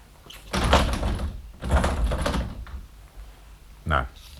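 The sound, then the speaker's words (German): Shutters with solid iron hinges set firmly in wooden frames being closed, a muffled wooden thud near the end, with people talking over most of it. “Nun schließen Sie bitte die Läden. Die Angeln sind aus massivem Eisen und fest in den hölzernen Rahmen eingelassen.”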